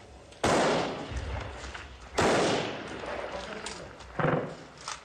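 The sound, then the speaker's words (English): Gunfire from automatic weapons as Kurdish fighters battle militants along a front line: three sharp, loud bursts cut through a constant background of rough noise, separated by roughly two-second gaps. “Amateur video showed Peshmerga fighters battling Islamic State militants with automatic weapons along a front line between the autonomous Kurdish region and Nineveh province.”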